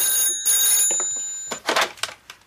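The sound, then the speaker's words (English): A telephone on a desk rings after a mobile phone dials its number: a bright, bell-like electronic trill in two bursts, followed by a few softer clattering sounds. “The Queen holds a mobile phone and dials a number.”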